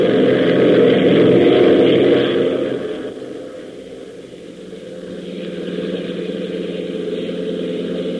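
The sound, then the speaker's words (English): A Jeep engine with the throttle opened wide roars loudly and steadily at first, then its level drops and it settles into a quieter, continuous drone for the rest of the stretch. “open that throttle wide. Let's get back to Lakeville fast.”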